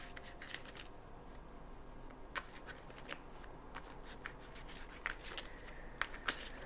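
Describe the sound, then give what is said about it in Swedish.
A deck of tarot cards is shuffled in quiet, crisp riffles and soft slides. Occasional sharper snaps rise above the steady papery rustle, with no talking. “Så jag har mina tarotkort här. Och jag kommer blanda dem ordentligt.”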